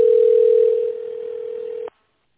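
A phone line gives a steady single-pitch tone while a call to a company is put through to an operator. The tone holds for about two seconds and then cuts off abruptly into silence.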